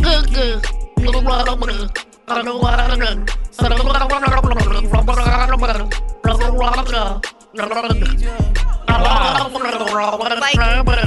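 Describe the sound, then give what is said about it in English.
A person gargling along to a song: a continuous wet, bubbling voice following a melody in several phrases, with brief breaks between them. “Can you gargle along to the song? I want to see how close you really were right there.”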